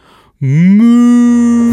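A cow lets out a single long, loud moo that rises in pitch at the start and then holds a steady droning tone.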